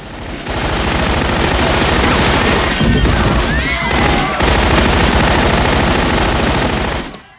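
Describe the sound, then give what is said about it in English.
Rapid automatic fire from a German submachine gun: a loud, dense, unbroken stream of shots that runs for about seven seconds, with no voices. “Get a load of this gat. Some German submachine gun.”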